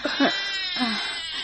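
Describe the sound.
A baby cries in a few short, wavering wails with a thin, bleat-like quality, loud and close together, with no words spoken.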